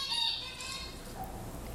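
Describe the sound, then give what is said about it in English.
Calls of zebra finches, an adult male and a juvenile male: brief, high, nasal tonal calls, strongest near the start and then fading to fainter chirping, with no talk. “And here's a male zebra finch on this side. And here's a juvenile male zebra finch”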